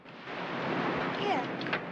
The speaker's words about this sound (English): She smiles at him, the wind sweeping her long hair across her face.